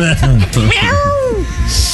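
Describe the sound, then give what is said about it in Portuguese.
A cat yowls after its tail is stepped on: one long, loud wailing meow whose pitch arches up and then falls, preceded by brief vocal sounds. “Levanto, piso no rabo do gato.”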